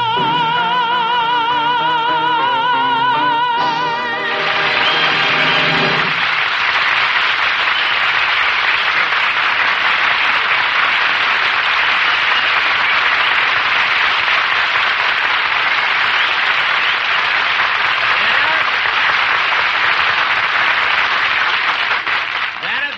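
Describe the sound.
Audience applause following a brief musical passage, a long, steady roar of many people clapping that holds at an even, loud level for nearly twenty seconds.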